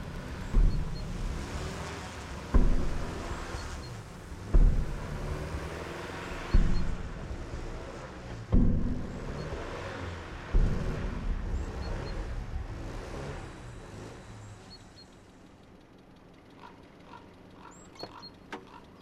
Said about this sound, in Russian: Машина буксует в снегу, почти не продвигается вперед.